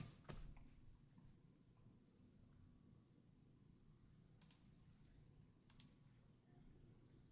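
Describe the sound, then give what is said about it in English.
Soft typing on a computer keyboard as a stock ticker is entered, a few faint key clicks scattered through a quiet stretch, with a couple of sharper taps near the end. “Oh, I don't have it on here. I'll type it in, XOP.”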